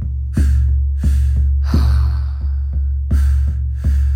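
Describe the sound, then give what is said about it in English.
Forceful breaths in a breathing exercise pattern of two sharp inhales and one exhale, repeated several times in a steady rhythm over a continuous low drone. “today we're going to be doing three rounds of a Wim Hof style breath. It involves two inhales and an exhale, and it sounds like this.”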